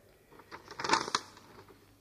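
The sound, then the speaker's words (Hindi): Paper crinkles and rustles as a piece of paper found in food is unfolded, a short, quiet crackly burst that swells briefly and then fades away. “ये क्या, खाने के बीच में कागज का टुकड़ा, जरा देखूं तो क्या है”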